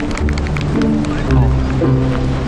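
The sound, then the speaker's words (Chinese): Running footsteps beat in a quick, steady stream of many steps at an even loudness, with voices murmuring alongside. “快去吧，你快点跑，他们都等着你呢。哦，慢点跑，小心摔着。”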